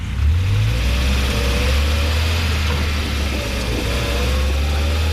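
A car engine pulls away after refueling, a loud mid-pitched motor drone that climbs briefly in pitch near the start and then holds a steady, even rumble to the end.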